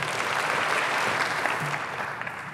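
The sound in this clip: An audience at a Christian university gives a morning speaker a warm welcome with applause. The dense, even clapping holds steady throughout the short stretch and eases slightly at the end.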